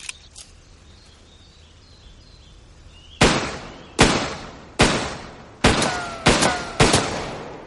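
Six sharp handgun shots ring out during target shooting practice, each a loud crack with a short decaying tail, fired at slightly uneven intervals after a quiet stretch.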